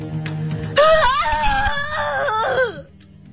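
A man's anguished, beast-like howl of grief from a clifftop: a loud, wavering wail with bending pitch that holds for about two seconds and then breaks off, after quieter sustained tones.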